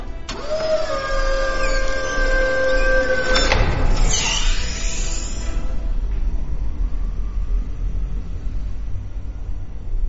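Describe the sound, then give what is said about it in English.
Sci-fi emergency elevator effect: a humming electronic whine with layered tones gives way to a sharp whooshing sweep, then settles into a steady low rumble of travel. “This emergency elevator will take us straight to the hangar bay.”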